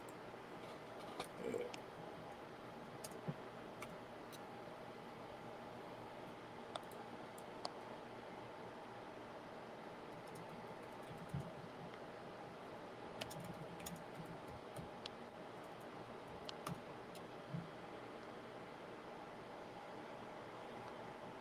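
Typing on a computer keyboard: faint, irregular key clicks scattered over about twenty seconds above a steady background hiss.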